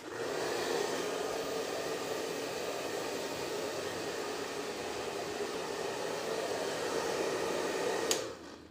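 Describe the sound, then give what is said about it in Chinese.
Steady, loud whoosh of a hair dryer blowing hair dry, an even rushing airflow that holds for about eight seconds before a sharp click and a quick drop as it cuts off. “笨蛋哥哥，头发用毛巾擦一擦，再吹干，这样才能舒服点啊。”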